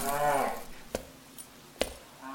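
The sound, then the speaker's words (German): Cattle in a barn: one low, drawn-out moo at the start, fairly faint, followed by a few sharp knocks with no talk. “ich glaube, hier liegt noch ein Rind”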